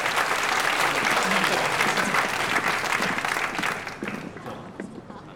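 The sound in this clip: Applause from a group of students welcomes a guest, dense and steady clapping that holds strongly for several seconds before thinning and fading toward the end.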